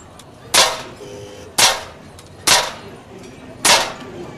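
Four sharp carbine shots crack out at a fairground shooting gallery. Each is a loud, abrupt report with a short decay, spaced about a second apart over a faint background.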